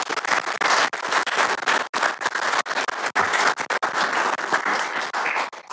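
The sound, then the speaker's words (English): Meeting attendees at a county commissioners session give a round of applause for a local community foundation, with brisk, fairly loud clapping that continues throughout with small fluctuations. “So a big round of applause for our”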